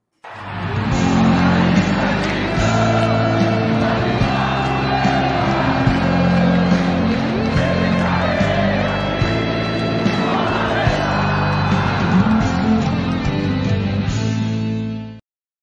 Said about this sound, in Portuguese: Eu vou chamar a vinheta, vocês vão conhecer a bancada.